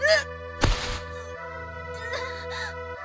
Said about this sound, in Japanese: ああ殴っちゃった。